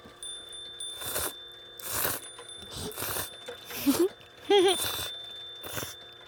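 Slurping of plain cold somen noodles, with several loud, breathy bursts spaced roughly a second apart and a person's short hums of approval in between.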